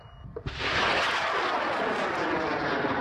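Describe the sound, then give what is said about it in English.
A student-built rocket, 5 metres tall and weighing 40 kilograms, launches from a remote field in far west New South Wales. After a quiet moment, a sudden blast opens into a loud, sustained roar. “Launching thousands of feet into the air, a 5-metre-tall, 40-kilogram rocket takes off from a remote field in far west New South Wales.”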